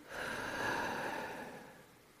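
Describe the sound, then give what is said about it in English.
A single deep breath, soft and airy, swells and then fades away over about two seconds with no other sound around it. “Let's go ahead and do that. Deep breath in. Hold it and release.”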